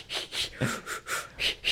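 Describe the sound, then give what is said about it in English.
A voice imitating Lamaze breathing: a quick, even run of about seven short, breathy puffs, each a hiss of air in steady rhythm. “I'll have to do my Lamaze breathing beforehand.”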